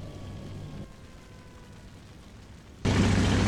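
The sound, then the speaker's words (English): Bombs from a carpet-bombing run explode in the video game Battle Stations: Midway: a steady low rumble gives way to an abrupt, loud, roaring blast that holds to the end. “bomber drops all its bombs in one go. This is a technique called carpet bombing, which maximizes the chance of a hit. Well done. A direct hit.”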